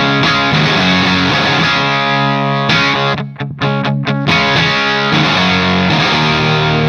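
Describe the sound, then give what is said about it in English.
Distorted, gritty bass guitar played straight into an amplifier with no pedals, ringing thick sustained notes with a short choppy break in the middle. “Can we hear just your bass tone without pedals?”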